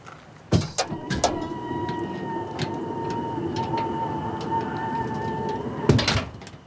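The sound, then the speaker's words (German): A truck cargo bed being opened: a sharp metallic clank and a few rattles, a steady mechanical whine in between, then another cluster of clattering bangs near the end. “Öffnen Sie bitte die Ladefläche.”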